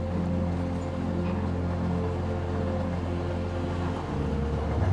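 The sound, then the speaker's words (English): A train running along tracks gives a steady, continuous low rumble with a droning hum that stays even throughout and shifts slightly in tone near the end, with no voices. “traveling along these tracks. The rhythmic pattern of the engine lulling you into a sense of deep tranquility.”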